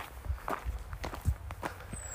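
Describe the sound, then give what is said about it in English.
Footsteps walk up a path out of woodland toward a main road: a quiet, steady series of soft steps at an even pace, with no other sound over them. “Now I'm walking up this path that's out of the woodland, but it's still kind of in the wilderness going towards the main road.”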